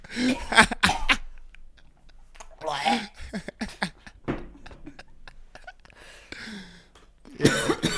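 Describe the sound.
Someone coughs hard after inhaling a mouthful of sweet tea. Harsh, spluttering bursts come at the start and again near the end, with throaty, choking sounds and some voice in between.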